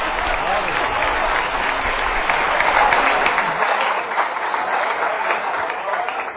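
Audience applause at a Punjabi stage performance: a steady, dense wash of many hands clapping that holds for several seconds and eases slightly toward the end.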